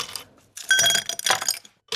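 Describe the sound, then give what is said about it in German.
Ice cubes dropped into a glass: a few bright clinks and rattling bursts separated by short pauses, with ringing glassy tones at a moderate level. “mit ein paar Eiswürfeln, die hier in ein Glas reingetan werden.”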